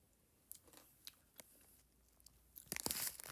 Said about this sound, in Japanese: 昨日いただいたそろめスナック、どんなやつかわかんないけど、食べてみましょうと思って、